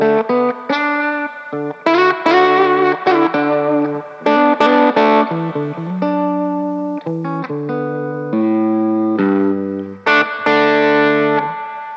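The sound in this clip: Electric guitar playing a clean solo through a dual-slot effects unit: many bright, sustained notes and short chords in a loose melodic line, some held long and ringing out.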